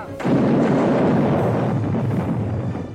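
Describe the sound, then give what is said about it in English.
Rifle volley from defending soldiers firing on attackers at night during the siege of the Alamo: a sudden loud blast that spreads into a dense, roaring rumble lasting about three seconds, with no voices. “Raising their rifles, they opened fire and dropped the entire first rank of soldiers.”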